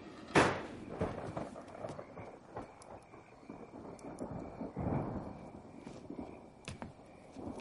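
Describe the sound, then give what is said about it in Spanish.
Thunder from an approaching storm rolls through in low, fairly faint rumbles, with a sharper crack near the start and scattered softer rumbles and knocks after it. “Se acerca una tempestad.”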